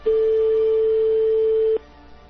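A European telephone ringing tone sounds once as a single steady, mid-pitched tone lasting under two seconds. It then cuts off to near silence.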